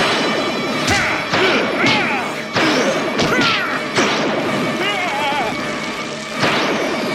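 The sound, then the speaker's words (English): Bullet-impact sound effects in an action audio drama, as shots strike a shape-shifting alien: several sharp, loud smashing hits with crunchy debris, spaced unevenly through a busy, noisy scene. “That last bullet hits, and Bright Star stumbles.”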